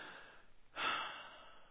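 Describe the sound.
A single deep breath, taken as a moment of rest and trust: one soft, breathy rush of air that rises suddenly after a brief quiet and then tapers slowly, heard alone.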